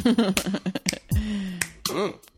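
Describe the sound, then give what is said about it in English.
A few sharp finger snaps, made while snapping fingers in a Z shape, cut in among expressive, pitched vocal sounds and sliding tones. “Snap your fingers in a Z.”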